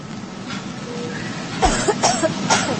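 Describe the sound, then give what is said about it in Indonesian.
Loud coughing: a few harsh, abrupt coughs cluster in the second half over a steady low background rumble. “Aku mendengar suara batuk yang sangat gaduh.”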